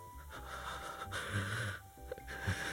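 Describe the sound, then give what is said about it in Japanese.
A voice imitates the held, tense breathing of someone hiding in a closet, with a few soft, strained, wheezy breaths that come in uneven pulses. “押し入れの中とかにあの隠れて息を潜めている時の呼吸っていうのかな”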